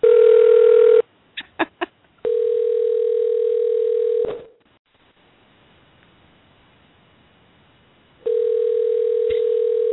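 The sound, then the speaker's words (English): A telephone placing an outgoing call: a steady dial tone, three quick dialling beeps, the tone again, then a cut to near silence before the steady tone returns, with no voices. “Let me see if she's going to answer. It's dialing.”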